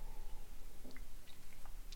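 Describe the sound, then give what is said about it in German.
Faint, wet slurping sips of coffee, with soft mouth sounds and small gulps in a quiet, irregular rhythm. “So, jetzt kommt erstmal ein Schluck Kaffee, sonst wird der kalt.”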